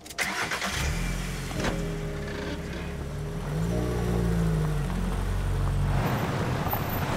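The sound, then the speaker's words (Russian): An SUV engine drives up to a house: a mid-pitched engine drone with shifting, revving pitch that grows louder in the second half. “Вилли подгоняет свой внедорожник к дому Мака.”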